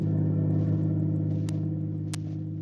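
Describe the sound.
A car drives along a road, its engine giving a steady, loud, low hum that continues throughout. Two brief sharp clicks cut through the drone near the end, and no one speaks.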